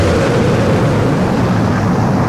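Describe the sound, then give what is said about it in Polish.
Rocket main engines ignite at launch with a loud, dense, continuous roar that holds steady throughout, deep and rumbling with a broad hiss layered on top. “5, 4, we've gone for main engine start, we have main engine start.”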